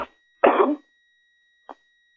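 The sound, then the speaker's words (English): A single short, rough cough stands out clearly in an otherwise quiet stretch, with a brief fainter sound just before it and another weak one shortly after. “See, you got that cough now after getting a haircut.”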